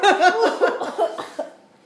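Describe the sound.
A run of several voiced coughs in quick succession, harsh bursts that weaken and trail off toward the end.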